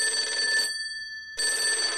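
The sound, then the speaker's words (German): A telephone rings in two bursts separated by a short pause, a bright, steady electronic trill with no voices. “In der Wohnung ihrer Eltern rief sie nach ein paar Tagen in Ihsans Stammkneipe an und ließ ihn ans Telefon holen.”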